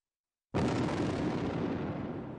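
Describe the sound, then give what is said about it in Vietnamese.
An explosion as a huge hand bursts apart in mid-air: after brief silence, a sudden blast opens into a broad, rumbling roar that slowly fades, fairly quiet overall. “Bàn tay to lớn giữa không trung đột nhiên nổ tung”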